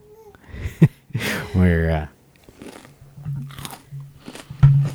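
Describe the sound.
Crunching and chewing of food in the mouth: a few sharp, crisp bites and wet mouth noises, with a brief voiced sound in the middle.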